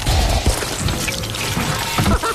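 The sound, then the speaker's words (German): A printer ink cartridge is ripped out and leftover ink splatters across the room: a loud, messy burst of splashing and clattering, with a few sharp knocks near the start and again near the end. “Könntest du bei dem blöden Seuchapparat mal die Patrone rausreißen, dass die Restfarbe nur noch durch den Raum spritzt?”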